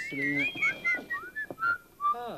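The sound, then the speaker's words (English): Whistling aimed at eggs to cool them: a run of short whistled notes at a high pitch, each note sliding and shifting between different tones, with brief gaps between phrases. “Well, we're whistling at eggs. Yes, that's what we're doing. We're whistling.”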